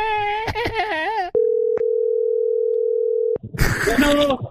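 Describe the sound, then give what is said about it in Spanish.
A telephone dial tone holds a steady single pitch for about two seconds with a brief click partway through, framed by lively, animated voices before and after, as someone prepares to dial a number again. “Pero vamos a marcar otra vez.”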